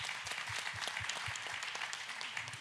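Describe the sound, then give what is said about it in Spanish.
Audience applause at a religious question-and-answer gathering, a steady, dense patter of many hands clapping at an even level throughout. “Denle un aplauso. Fue una respuesta.”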